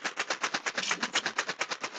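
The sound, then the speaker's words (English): A box of hard, round Smarties candies is shaken rapidly and evenly, making a fast, regular run of bright rattling bursts with no pauses. “Sounds hard. It sounds like something round. Is it? It's Smarties.”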